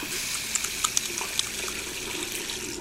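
Hands are washed under running tap water before kneading bagel dough, a steady bright hiss of flowing water broken by a few small splashes, with no voices.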